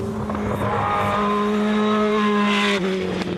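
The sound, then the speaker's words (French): A Formula 1 car's V8 engine revs at high pitch, a loud, continuous whining scream with a brief dip near the end. “Est-ce que vous l'avez entendu un peu miauler le V8 là, hein?”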